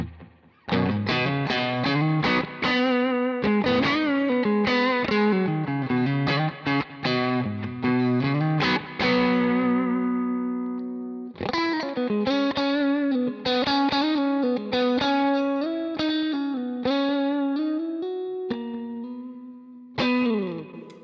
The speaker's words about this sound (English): If you were to listen to just this Gold with that Fathead, now we've got the Gold getting rid of a lot of low end, but the Fathead really trying to pick it up.